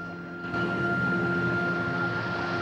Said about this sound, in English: watching the plane as it flies overhead in the blue, cloudy sky